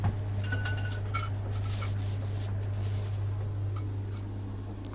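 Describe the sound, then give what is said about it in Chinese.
Water sample bottles are lifted out of a fridge with light glassy clinks and knocks over a steady low electrical hum. “跟住咧，佢就打开佢个雪柜，拎一啲嘅水嘅 sample 出嚟。”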